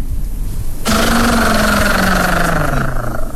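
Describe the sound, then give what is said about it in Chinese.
A push-started car engine that belches thick smoke catches abruptly after a quiet stretch, then runs with a loud, steady rumble whose pitch settles slightly lower as it keeps going, alone without talk. “这车发动起来，回头一看，嚯，浓烟滚滚呐！”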